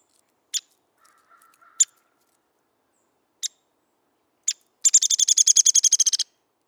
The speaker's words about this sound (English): I hear the chirps, twitters, caws, and beeps. It's a majestic symphony outside my window.